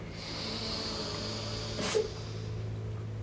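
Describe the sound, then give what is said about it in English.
A single deep inhale taken during a guided breathing and relaxation exercise, one short, breathy rush of air rising out of a quiet background hum. “Deep inhale.”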